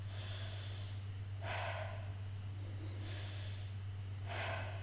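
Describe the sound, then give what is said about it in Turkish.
Three forceful breaths from a diaphragm breathing exercise, where the body is moved by breath alone. Each is a sharp, airy rush, evenly spaced over a steady low hum. “Sadece nefesle hareket ettirmeye çalışıyorum.”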